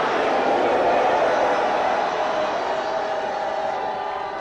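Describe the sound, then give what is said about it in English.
A church audience at a worship service shouts and cheers together in a sustained, broad roar of voices that slowly tapers off toward the end. “Shout a loud hallelujah.”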